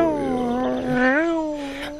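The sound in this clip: A cat gives one long, drawn-out meow that holds steady for about two seconds. Its pitch wavers and lifts briefly near the middle, then settles again. The call is loud and clear.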